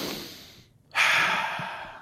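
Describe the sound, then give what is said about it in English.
A person sitting at rest takes a deep breath: a loud, airy rush of inhaled air that swells after a brief quiet gap and holds steady to the end. “But when I breathe in anyway, so if I take this breath,”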